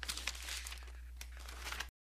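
Paper of a letter being handled, crinkling and rustling in a few sharp bursts with softer shuffling between, fairly faint, then cutting off abruptly.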